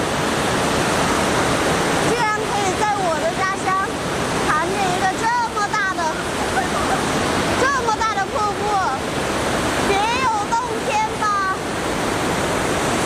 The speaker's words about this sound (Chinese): 在峡谷吊桥上行走，头顶是上百米的岩壁，脚下是湍急的瀑布